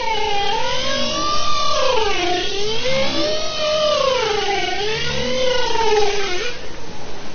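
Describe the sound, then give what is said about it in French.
Bowhead whales vocalize in an underwater recording, with long, smooth tonal calls that sweep up and down in pitch, wavering and rich in harmonics. The calls run almost continuously over a steady background hiss. “Ah oui, c'est des baleines, oui. Alors c'est pas des baleines à bosse, c'est baleines boréales.”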